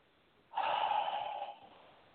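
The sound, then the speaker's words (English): A single deep breath, one smooth, breathy rush lasting about a second, clear and fairly loud against near silence. “Take a nice deep breath.”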